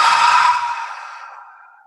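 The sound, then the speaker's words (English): A long, deep breath released as one breathy sigh during a relaxation exercise, loud at first and then fading away over about two seconds, with no voices. “we're going to take a nice deep breath up in the air. And we're going to put it down.”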